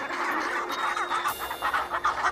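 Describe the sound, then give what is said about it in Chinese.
Chinstrap penguin chicks calling, many short raspy chirps that overlap into a steady clamour of moderate loudness. “帽带企鹅雏鸟也学着叫了几声。”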